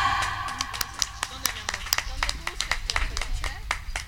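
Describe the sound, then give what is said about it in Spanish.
An audience claps at an anniversary event at the bandstand in Amecameca. The claps are scattered and uneven, many sharp separate hits rather than a dense ovation, with people talking underneath. “Vamos a recibirla con un fuerte aplauso.”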